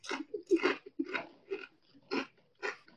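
Someone crunches apple and vinegar flavoured chips, making a quick, rhythmic run of crisp bites and chews with short breaks between them, and no talking.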